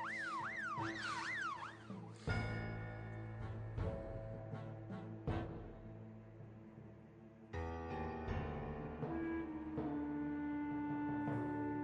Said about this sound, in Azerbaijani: Məncə intizarda qalaq. Ta həyəcan siqnalı qurtarsın.